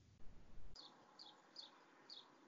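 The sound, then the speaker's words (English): A bird tweets outdoors near the listener: four short, high chirps spaced about half a second apart, faint over soft background hiss, after a brief low rumble at the start. “there's a bird's tweeting. You are? The bird's tweeting. Near me, yeah.”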